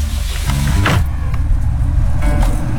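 A car gives a steady low rumble throughout, with a brief mechanical whir and creak near the start.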